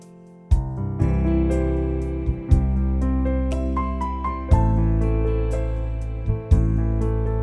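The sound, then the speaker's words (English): A keyboard passage on a Clavinova with its accompaniment system switched on, adding full sustained chords and bass under the melody, with new chords striking roughly every two seconds. “And now once again, here it is when I turn on the accompaniment system, listen to what the Clavinova adds to my music.”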